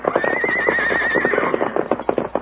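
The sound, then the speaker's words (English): A saddled, riderless army horse whinnies out on open plains, a long, loud neigh with a wavering pitch, over a steady, rhythmic clopping of hooves that continues after the call ends. “It's an army horse, Tonto”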